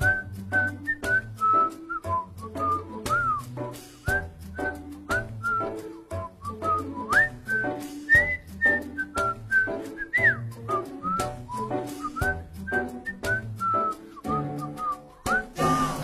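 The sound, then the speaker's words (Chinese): A whistled melody in a Chinese pop song, bright and clear, sliding between notes over a rhythmic instrumental backing with steady bass beats. “哼一段口哨”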